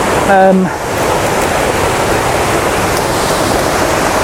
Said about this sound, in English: Now, I'm going to get wonderful access to this waterfall.